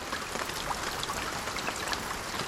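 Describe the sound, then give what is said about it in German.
Rain drops falling on leaves or a corrugated metal roof form a dense, steady patter, an even hissing wash of water with scattered brighter drop ticks throughout and no voices. “Beim Regen Tropfen, die auf Blätter fallen oder auf ein Wellblechdach.”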